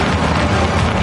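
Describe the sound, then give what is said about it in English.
An Audi with Quattro all-wheel drive is on the move. A dense, steady rushing roar of motion and road noise holds evenly throughout, with no talk. “And that's the sound of Quattro all-wheel drive.”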